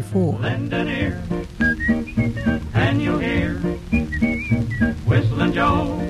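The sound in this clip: Whistling from a 1934 song recording, a bright melodic tune carried over steady instrumental accompaniment at an even, moderate loudness throughout.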